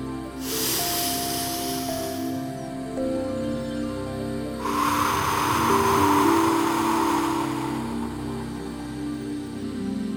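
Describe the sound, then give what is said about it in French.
Deep breathing, in through the nose and out through the mouth: a thin hissing breath, then a fuller and louder rush of air, both long and slow over soft sustained tones. “Continuez à respirer profondément, en inspirant par le nez et en expirant par la bouche.”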